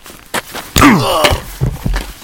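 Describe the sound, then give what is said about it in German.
A heavy blow strikes a man on the back of the head: one loud, dull thudding impact joined by a pained groan that falls in pitch, followed by a few softer thumps. “Musstest du so fest zuschlagen? Er blutet am Hinterkopf.”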